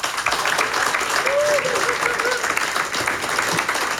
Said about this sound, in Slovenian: prosim posebej velike aplauze